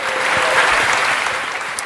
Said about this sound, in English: So give the Lord Jesus a great hand clap of praise this morning, amen?